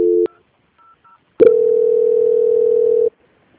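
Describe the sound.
Telephone tones play while a call is transferred: a short tone, two faint brief beeps, then a loud, steady, mid-pitched tone held for nearly two seconds before it stops.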